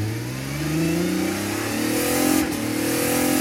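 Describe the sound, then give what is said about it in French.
A blue single-seater race car accelerating at full throttle along the pit straight during free practice. The engine note climbs steadily in pitch, dips briefly at a gear change, then keeps rising, loud and alone. “Une fois sur la ligne droite des stands, le pilote enfonce l'accélérateur jusqu'à la butée.”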